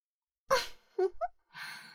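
Deep breaths drawn in while a face is pressed under bare feet to smell them: two breathy rushes with short voiced sounds between, moderately loud, with no talk.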